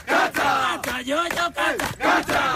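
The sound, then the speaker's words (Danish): Crowd singing together in loose unison, many voices chanting short melodic phrases in several loud bursts separated by brief dips. “Du ved, hvad de egentlig synger. Jeg har ingen idé, men prøv at høre, der er en stemning.”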